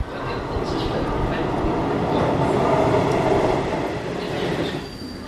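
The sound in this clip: Trains rumble through Vesterport station in Copenhagen in a continuous loud roar. Wheel squeal and clatter run through it, and faint voices can be heard beneath it.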